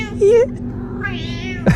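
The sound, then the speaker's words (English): A cat meows with a drawn-out, wavering call likened to a Liverpool accent. A softer, longer vocal sound follows, then a short sharp burst at the end. “What a weird but real thing that cats have accents.”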